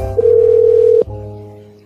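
A telephone dial tone holds steady and loud for under a second, then cuts off abruptly. A fainter low buzzing hum remains and slowly fades.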